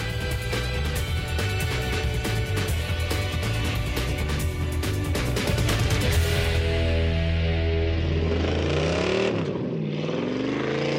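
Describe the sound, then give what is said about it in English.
Engine of a yellow Chevrolet Corvette Stingray sports car at Bondurant Driving School, a loud steady rumble with strong low tones that shift in pitch toward the end. “All right, so we're here with the new Stingray. Bondurant Driving School has gotten the first. First of 32 in your signature yellow”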